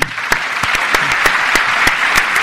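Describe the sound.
An audience applauds to congratulate a speaker after a lecture on the European crises: dense, steady clapping with a few sharper, louder claps standing out, and no voices.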